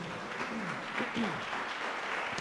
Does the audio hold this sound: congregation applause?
yes